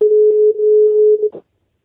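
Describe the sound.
A steady telephone dial tone holds for over a second at an even, fairly loud level, then cuts off with a short click.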